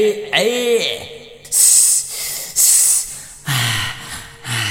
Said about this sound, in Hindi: ला आप का करिए जाने, साइकिल के हवा तो निकल गई।